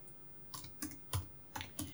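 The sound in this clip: Sparse keystrokes on a computer keyboard as an email is typed: about five short, crisp clicks spaced apart over two seconds, fairly faint and with no voices.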